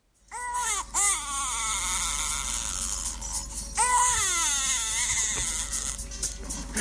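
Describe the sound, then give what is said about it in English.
A young boy cries in loud, wavering wails that rise and fall in a few long bursts. A faint, steady tone from Mario 64 game audio runs beneath the crying. “And this is the actual sound of my son crying.”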